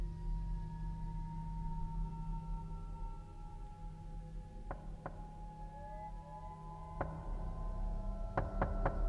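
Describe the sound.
Knocking on a door: a few sharp, separate raps land in two short bursts over a steady droning tonal background, with no voices.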